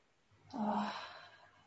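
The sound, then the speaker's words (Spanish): A single deep exhale through the mouth during a guided breathing exercise, breathy with a slight voiced tone, rising suddenly and then slowly fading out; fairly quiet. “Inhalen profundo y exhalen profundo. Pueden exhalar por la boca, haciendo un sonido si surge natural en ustedes.”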